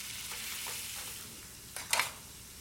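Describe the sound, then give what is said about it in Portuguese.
A steak frying in a frying pan in a kitchen gives a faint, steady sizzling hiss, with a brief louder crackling burst near the end. “Na cozinha, Paulette amacia um bife. Coloca-o na frigideira.”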